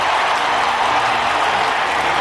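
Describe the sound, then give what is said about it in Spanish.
A loud, dense ovation greets Tito Berni's entrance at a gala event, many hands clapping together in a continuous, unbroken roar that stays strong throughout. “Entra el Tito Berni, atención, un aplauso. Ahí está.”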